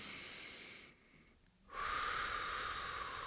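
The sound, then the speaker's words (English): Slow breathing in through the nose, done as breath work to calm start-line nerves: a steady airy hiss, a short quiet gap, then a longer and louder breath of air. “Focus on your breathing in through the nose,”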